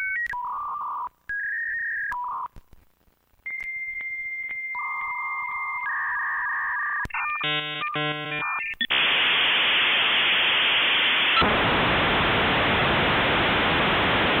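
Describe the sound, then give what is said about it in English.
A dial-up internet modem connects over a telephone line: steady tones and dialing beeps, then a burst of rapid handshake chirps and warbles, ending in a long, loud wash of hissing static. “It's kind of intense, isn't it? But this is the sound of the dial-up internet.”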